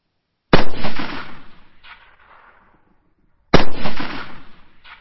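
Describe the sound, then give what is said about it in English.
Two sharp, loud rifle shots from Boer Mauser rifles in battle at sunrise, about three seconds apart, each cracking hard and then trailing off in a long rumbling decay. “see an incredible target and raise their Mauser rifles to their shoulders.”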